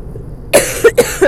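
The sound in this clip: Someone coughs mid-sentence: a quick series of four short, loud coughs in an uneven rhythm over a faint low background hum.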